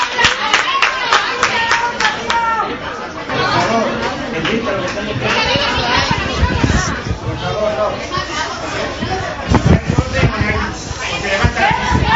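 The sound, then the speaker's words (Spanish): Applause and shouting from nurses at a professional association meeting where the governing board walked out, with dense steady clapping mixed into loud crowd chatter and raised voices throughout. “¡Ese silencio, colegial! ¡Un aplauso! ¡Alta, chavales!”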